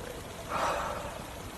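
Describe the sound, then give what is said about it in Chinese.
A single deep breath, a soft airy swell that rises and fades midway over a steady background hiss, with no talk. “呼吸，呼吸，”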